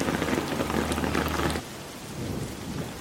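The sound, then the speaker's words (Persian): Rain pours down steadily, heavy and hissing with a low rumble for the first half, then falls more softly and evenly. “داره بارون میاد. چترش رو باز میکنه.”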